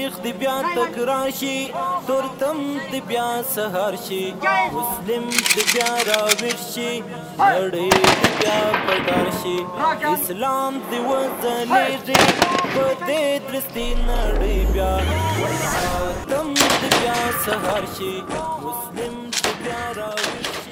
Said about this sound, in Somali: ka aflaxay mucaskarka oo ku shiishtamaya ahdaaf meel sare loo dhigay kuwaas oo mid u tooganayaan hubka ay ku shiishtamayaan waxaa kamida qoriga AK-47 BKM-ka RPG-ga iyo qoriga dhishiikaha